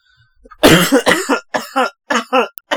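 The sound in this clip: A fit of several harsh, loud coughs after a vape hit goes down wrong, the bursts coming in quick succession with brief gaps between them.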